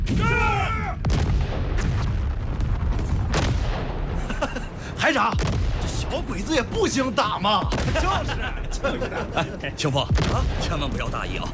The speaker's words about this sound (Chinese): 一排全体听我命令，五发齐射，打！